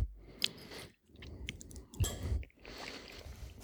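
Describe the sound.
Soft, moist chewing of a bite of layered chocolate sponge cake with vanilla pudding and a whipped cream topping with milk chocolate sprinkles, in a few short bursts separated by brief pauses.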